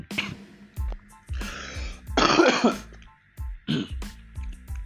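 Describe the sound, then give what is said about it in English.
A man coughing and clearing his throat, a couple of rough, hoarse bursts in quick succession, set between stretches of talk. “I'm sorry, I had a bit of cough.”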